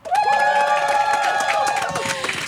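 A peaceful crowd at a summer meeting cheers and shouts greetings; loud, sustained voiced cries and whoops rise together over a bed of clapping and chatter, staying strong throughout.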